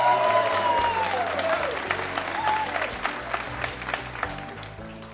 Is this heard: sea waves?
no